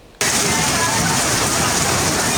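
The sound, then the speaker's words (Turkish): Heavy rain from a thunderstorm in Erdek, Balıkesir cuts in abruptly as a dense, loud, steady hiss of downpour that holds constant without a break. “Balıkesir'in Erdek ilçesinde etkili olan gök gürültülü sağanak hayatı olumsuz etkiledi.”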